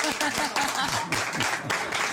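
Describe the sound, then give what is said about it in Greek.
Audience applause at the close of a live song performance: a dense, steady patter of many hands that holds throughout, with low voices running underneath. “Δώστε ένα χειροκρότημα”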